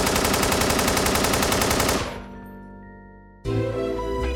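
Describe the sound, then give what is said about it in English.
Rapid automatic gunfire from a mobster shooting: a loud, dense burst of machine gun shots runs for about two seconds, then decays into a ringing tail before another loud, noisy burst cuts in. “When the assassin's partner heard the shots, he sprayed bullets at the mobster's entourage.”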